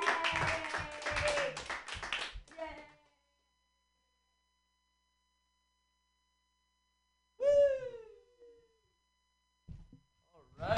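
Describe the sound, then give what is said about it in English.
An audience claps for a comedian being introduced. The applause is brief and faint, mixed with voices, and fades into quiet after about two seconds. “Put your hands together for Josh Kotsky.”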